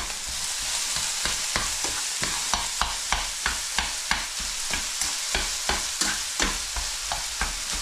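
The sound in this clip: Minced meat fries in a pan with a loud, steady sizzling hiss. Many regular, quick scraping strokes from stirring sound through it, and no one speaks.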